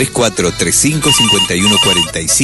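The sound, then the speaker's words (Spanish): A telephone rings in a radio studio, two short electronic ring bursts sounding under steady talk. “Bueno, están llamando, parece. Atiendo el teléfono brevemente.”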